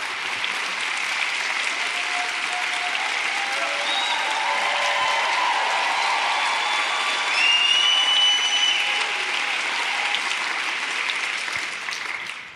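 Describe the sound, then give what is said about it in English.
Sustained audience applause at a church fellowship evening as a guest speaker is welcomed. Dense, even clapping carries on for many seconds, swells briefly partway through, then fades away at the end. “Put your hands together, everybody.”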